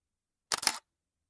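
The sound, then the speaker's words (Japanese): A camera shutter fires once as a photo is taken in a video game: a brief, crisp mechanical click-and-snap burst, fairly quiet, standing alone in silence. “写真撮っちゃお”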